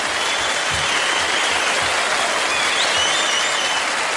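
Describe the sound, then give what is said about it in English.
Audience applause greets the hosts at the start of a comedy talk show, a steady, dense wash of clapping that stays loud and even throughout without a break. “Now, put your hands together for the Shiznit.”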